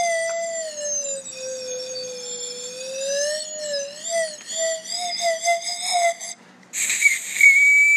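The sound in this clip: A whistled tune is played as a joke concerto on a makeshift whistle-like instrument. Long, wavering, sliding notes give way to quicker, warbling phrases, ending in a brief, shrill, higher squeal.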